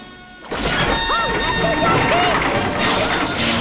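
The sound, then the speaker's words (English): Large boulders crashing down from the roof of a passageway, a dense, continuous rumble of heavy impacts and clatter with shrill sounds layered over it, loud throughout. “One by one, the boulders come crashing down.”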